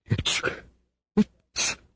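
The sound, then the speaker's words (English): A person with a cold and sore throat sneezes: a few breathy bursts end in a sharp, loud sneeze, with no other talk. “I'd like to, but I can't stop sneezing.”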